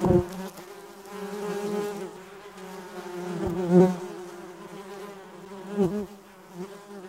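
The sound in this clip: A bee buzzing in a steady, reedy drone that swells and fades several times, alone and fairly loud, with a rich hum of overtones.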